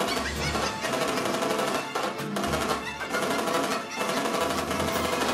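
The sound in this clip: Rapid automatic machine gun fire in a video game, a loud, dense rattle of continuous bursts broken by a few brief pauses.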